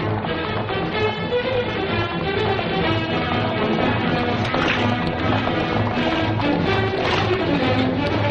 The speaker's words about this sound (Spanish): Al día siguiente varios caballeros cabalgan por la Sierra Castellana donde quedan algunos restos de nieve sobre el paisaje rocoso.